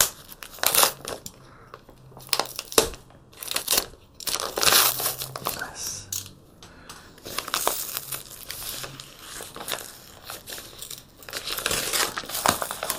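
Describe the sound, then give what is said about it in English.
Crinkling, crunching and tearing as a heavily taped package is unwrapped. Many quick, irregular bursts of plastic and tape noise come one after another, with no talk. “I think I taped this up like crazy. There we go.”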